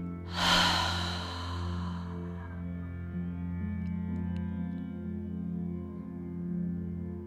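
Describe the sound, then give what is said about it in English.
A deep breath, drawn in through the nose and emptied out through the open mouth during a guided breathing practice, comes as one breathy rush early on, then eases over a steady, sustained musical drone. “Inhale through the nose. Open the mouth and empty out.”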